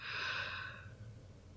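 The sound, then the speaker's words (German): A slow inhaled breath during a four-count breathing exercise: one soft, airy rush of air that is strongest at the start and then fades gradually, with no talk. “Also, 4 Sekunden einatmen.”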